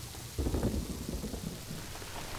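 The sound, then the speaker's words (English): Steady rain hisses throughout, while a low rumble of thunder swells early on and then fades back into the rain. “heading into the San Rafael Valley area, the steady fall of rain muffling their horses' hoofbeats and helping to wash away their tracks.”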